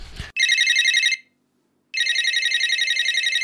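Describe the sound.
A telephone rings for an incoming call: two long bursts of a bright, trilling electronic ring separated by a short silent gap, preceded by a brief low thump at the start.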